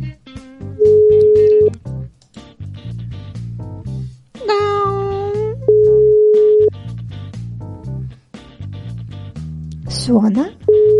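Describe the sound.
A telephone ringback tone sounds while someone is being called: three long, steady single-pitch beeps about a second each, spaced several seconds apart, the last cut off, over background music and a swooping voice.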